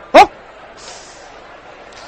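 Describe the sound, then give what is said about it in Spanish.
A person imitates a dog barking with a single loud, short yelp at the start, then only a low, steady background remains. “Me piden que ladre, a ver cómo es su sonido,”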